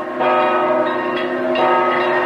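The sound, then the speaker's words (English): Church bells ring in a tower atop a cathedral after a royal wedding: a dense, continuous peal of overlapping metallic tones that stays loud throughout, with fresh strikes partway through. “Outside, bells ring in a tower atop the cathedral.”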